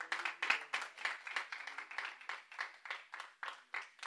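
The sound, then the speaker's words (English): A church audience gives a clap offering, many quick claps in a fairly steady rhythm that stays faint and even throughout, with no talk over it. “Give a clap offering to the Lord if you would, please.”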